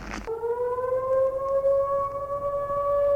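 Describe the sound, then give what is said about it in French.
Alarm siren going off at a jewellery shop: a short noisy burst, then a loud, steady wailing tone that holds an almost constant pitch. “une sirène vient de retentir, qu'il fait sursauter et le paralyse. Elle vient d'une bijouterie.”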